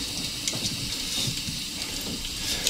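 Water runs from a tap into a sink to rinse a deep cut, a steady, faint rushing hiss that continues evenly throughout with no breaks.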